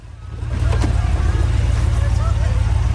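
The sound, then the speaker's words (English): A car pulls up in front of a house, its engine a low, steady throbbing rumble that swells in the first half-second and then holds a constant drone; no door sound stands out. “Marvin pulls up in front of the house and a flunky opens the car door for Kathy.”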